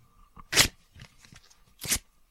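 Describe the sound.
Large, thick laminated cards are handled in a few sharp, crisp bursts of rustling and scraping. Two louder flicks stand out, with softer shuffles between them, and there is no talking.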